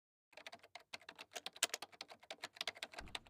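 Typing on a computer keyboard while writing: many quick, irregular key clicks, quiet and alone, with a soft low thump near the end.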